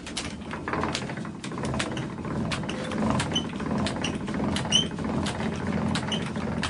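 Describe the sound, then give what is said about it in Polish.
A cable ferry's ramp raised by turning a hand wheel in the wheelhouse on the Warta river: continuous mechanical churning laced with rapid rattling clicks, steady throughout with no talk. “Jesteśmy teraz w kajucie, w sterówce. Tutaj mamy dwa koła sterownicze, jedno służące do podniesienia klapy, którym teraz będziemy poruszać.”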